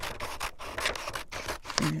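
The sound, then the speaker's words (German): Scissors cutting apart two paper strips printed with rows of letters, heard as a steady run of dry rasping snips and rustles with no voices. “Dann schneiden wir jetzt die beiden Buchstabenreihen auseinander.”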